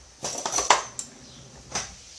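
A fork clinks against a waffle iron while lifting out a small freshly baked waffle: a few light metallic taps and scrapes, bunched in the first second and followed by one more later, with no talking.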